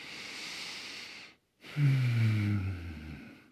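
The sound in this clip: Slow, deliberate breathing during a deep-flow yoga session: a long, noisy inhale, a brief silent pause, then a fuller exhale carrying a low voiced tone that fades away.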